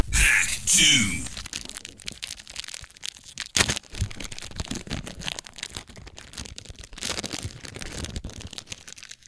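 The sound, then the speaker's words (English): Tearing open a foil pack of 1998 Paramount Happy Days collector cards: a loud burst of crinkling foil at the start, then softer rustling and handling noise. “Should we open up some Happy Days cards? All right, here we go. So this too is in a foil pack because this is a 90s collector's card set.”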